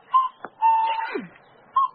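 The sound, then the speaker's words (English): A person imitates a cuckoo call by whistling in a garden: short clear notes, one long level note that bends downward at its end, then another brief note, all alone with no talk. “a cuckoo. Why are you laughing? No, it wasn't a real cuckoo.”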